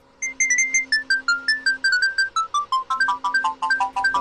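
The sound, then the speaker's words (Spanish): A phone ringtone sounds during an outgoing call: many short, bright electronic beeps in a fast, stepped melodic pattern, repeating loudly and steadily throughout. “Esperen, vamos a hacer una llamada.”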